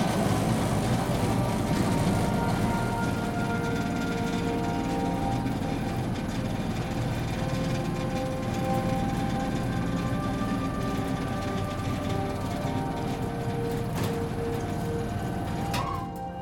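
A construction lift descends at the Slussen building site in Stockholm, giving off a steady mechanical drone with a low rumble and faint whining tones that run unbroken throughout, with no voices.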